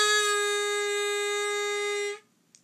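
A harmonica plays a three draw half step bend: a single steady, reedy held tone rich in overtones that sustains for about two seconds, then stops cleanly, followed by a faint small click.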